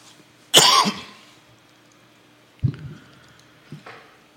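A person with a scratchy throat gives one loud, harsh cough, then two softer throat clears spaced a second or so apart. The pauses between them are quiet, and no one speaks.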